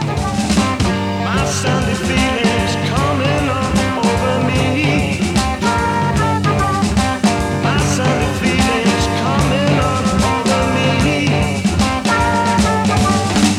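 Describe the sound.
A blues and jazz rock band performs live at the National Jazz and Blues Festival in England, with loud, dense, unbroken full-band music driven by steady percussion throughout.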